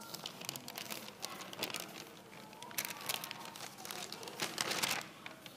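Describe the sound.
Paper being folded up by hand, a quiet run of soft, irregular crinkles and rustles.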